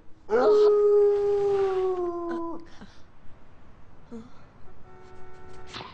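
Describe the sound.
A dog howling: a long, sustained, tonal howl that holds steady and then sags slightly at the end, followed by a fainter, shorter howl over low background noise.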